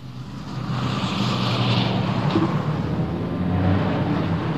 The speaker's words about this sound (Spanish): Cientos de coches.